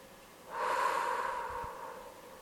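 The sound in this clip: A person exhales forcefully in one long, breathy blow during a guided full-body tension exercise. The breath swells quickly, holds for over a second, then fades gradually, and no one talks over it.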